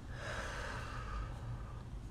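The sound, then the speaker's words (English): Deep, slow breathing, with a soft, airy rush of air and a faint nasal edge that stays steady and quiet throughout, with no voice over it. “Okay, breathe with me, baby. In and out.”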